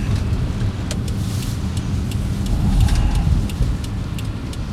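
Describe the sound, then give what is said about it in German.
A tractor with a grit-spreader hopper on the back, working as a gritting vehicle, drives past with a steady low engine rumble that swells slightly midway before easing off, with faint ticking above the drone. “Da unten fährt gerade wieder ein Streufahrzeug. Das ist aber nur so ein Trecker mit so einem Streutrichter hinten drauf.”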